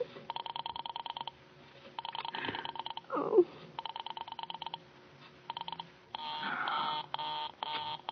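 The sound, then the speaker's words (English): Telephone line tones as an operator dials a Murray Hill number: faint, thin bursts of a buzzing pulsed tone repeat with short gaps between them. “will you ring that Murray Hill 70093 number again? I can't think what's keeping him so long. I will try it for you.”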